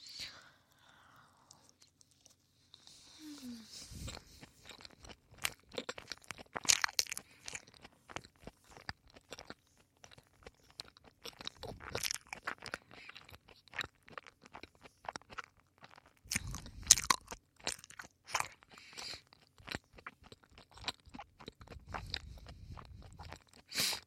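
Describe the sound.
Meat being chewed and eaten: many quiet, moist crunches and bites come at an irregular pace, with soft scraping and faint whispered speech in places.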